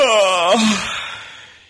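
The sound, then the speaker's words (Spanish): A yawn as a sound effect: a drawn-out voiced exhale whose pitch sags slightly, then trails off into a soft breathy tail. “Se le puede poner un bostezo, si tienes por ahí un... Te he leído la mente, Juanjo. Un bostezo.”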